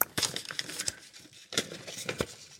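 Crisp paper rustling and crinkling as an envelope is drawn and handled, with a few short, brighter bursts of crackle rising out of a softer, continuous shuffle.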